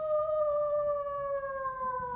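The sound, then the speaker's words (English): A wolf howls in a single sustained, pure tone that holds nearly level and sinks slightly in pitch toward the end, with no other sound. “I think that wolf is getting closer.”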